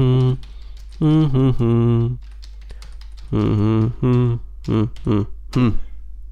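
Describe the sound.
Keys clack on a computer keyboard as a note is typed, a few quick, light taps scattered between and under long, voiced vocal sounds.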